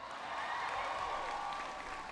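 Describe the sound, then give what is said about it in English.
Clapping from an audience at a university event after a speaker's introduction, a steady, moderately loud wash of hands that holds an even level from start to finish. “Give Brian a big round of applause for the introduction.”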